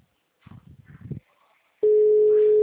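Ringing tone of an unanswered telephone call: after a brief murmur, a loud, steady single-pitched tone starts abruptly and holds unbroken to the end.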